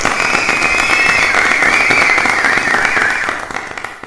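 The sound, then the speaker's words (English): Audience applause, a dense, steady wash of clapping that holds loudly for several seconds, then thins and fades toward the end. “Round of applause, everybody.”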